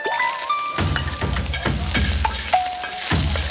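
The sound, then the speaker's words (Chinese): Salted pork sizzling in a hot pan, a dense continuous crackle and hiss with recurring louder scraping bursts as it is stirred, steady and fairly loud throughout. “下锅， 第一步加上我们的咸肉，”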